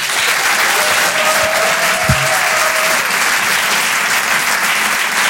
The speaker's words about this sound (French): Je vous demande de faire un maximum de bruit, s'il vous plaît, pour Paco Pérez.